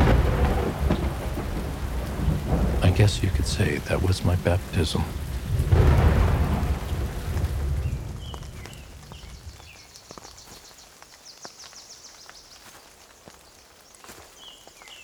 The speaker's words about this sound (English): I remember hearing the thunder define the far reaches of the valley as the storm passed over me, drenching me.